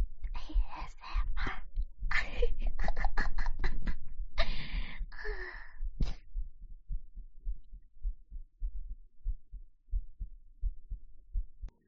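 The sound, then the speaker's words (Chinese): ASMR heartbeat: breathy, rustling sounds at first give way to steady, regular low thumps in an even rhythm, soft and alone. “最后五分钟，就到心跳声。”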